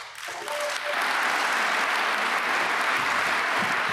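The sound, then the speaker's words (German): Audience applause swells for a political speech at the Dresden Kulturpalast, rising quickly after a brief quieter opening into loud, sustained clapping that carries on steadily to the end. “Ja, man kann es ja im Hintergrund hören. Großen Applaus hat er am Nachmittag im Dresdner Kulturpalast dafür bekommen.”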